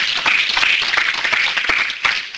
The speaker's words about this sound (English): go ahead and give God a hand clap of praise up in here.